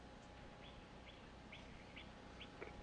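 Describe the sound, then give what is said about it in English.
Faint bird chirps come from outside on a back porch. A series of short, high calls repeats over a steady low background hiss. “Do I hear a bird in the background there? Well, I'm kind of outside on the back porch and there's some birds.”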